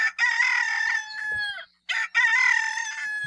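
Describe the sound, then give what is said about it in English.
A domestic chicken rooster crows cock-a-doodle-doo twice, loud and bright with rich harmonics. The first call ends in a drawn-out falling note, and after a brief gap the second runs on to the end. “the rooster's four-syllable cock-a-doodle-doo call is much shorter in the moa than the domestic chicken. Here's the call of the moa. And here's the call of the domestic chicken.”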